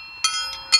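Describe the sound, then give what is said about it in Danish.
Two horseshoes struck together during cowboy training ring out in a few bright metallic clinks, each sharp strike leaving a sustained, bell-like tone between hits. “Det er faktisk ikke en klokke, det her. Hvad er det? Det er lyden af to hestesko, der slår sammen.”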